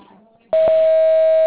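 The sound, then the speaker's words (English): A voicemail system sounds a single loud, steady, pure beep that starts abruptly after a quiet moment and holds unbroken, marking the start of message recording. “Please speak clearly after the tone.”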